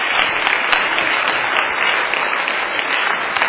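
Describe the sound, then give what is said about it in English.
Loud, dense applause from an audience at a school choir event, even clapping that holds steady throughout with no voices over it. “Okay, ladies and gentlemen, a round of applause, please.”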